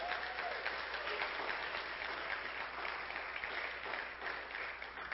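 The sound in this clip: A church audience applauds to welcome a speaker to the stage. Steady, fairly faint clapping from many hands holds evenly throughout.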